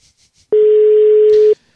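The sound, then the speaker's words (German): A telephone busy signal sounds on a call to a mobile phone: a single loud, steady tone lasting about one second, heard alone with silence before and after. “Besetzt geht er noch nicht ran, wie ihr hört.”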